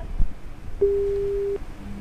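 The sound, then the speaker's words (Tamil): A telephone busy tone after a call drops: one steady, mid-pitched electronic beep lasting under a second, alone over faint low line hum. “Call cut ஆயிடுச்சு”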